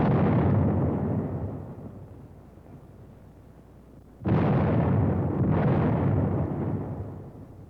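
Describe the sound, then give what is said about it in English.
Heavy booming reports from a squad firing a 37-millimeter anti-tank gun: a few loud blasts, each with a sharp onset and a long rumbling decay, with no voices. “A squad firing the 37-millimeter anti-tank gun.”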